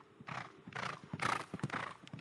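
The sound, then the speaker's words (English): A racehorse's hooves during a morning training run with a rider aboard: faint, rhythmic hoofbeats mixed with the horse's own vocal sounds and breathy bursts. “rides one of her horses on a morning training run”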